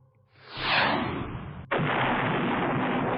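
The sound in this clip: A sci-fi weapon, a missile flamethrower laser, fires from a right armband: a swelling whoosh builds, then an abrupt loud blast breaks off into a sustained, dense roaring hiss that holds steady to the end.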